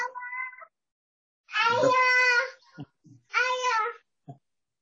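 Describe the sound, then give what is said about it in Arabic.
Children's high-pitched babbling and whiny vocal cries picked up by a microphone during a religious lecture, in three drawn-out tonal bursts with a few short clicks in between. “لو الإخوة يعني إطفاء المايك عساس تشويش الأطفال بارك الله.”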